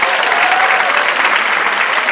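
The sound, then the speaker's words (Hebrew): Audience applause from a crowd at a live show, a dense, continuous clatter of many hands clapping, loud and steady throughout with a faint murmur of crowd noise. “איפה כפיים?”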